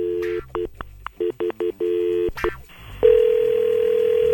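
Telephone keypad tones while calling someone: a quick run of beeps of varying length, followed by a steady continuous tone on the line.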